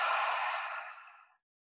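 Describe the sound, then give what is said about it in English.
A single deep breath during a guided breathing exercise: a soft, airy rush of air that starts full and fades away over about a second and a half, with no talk. “Let's take an inhale in through our nose, an exhale out through our mouth.”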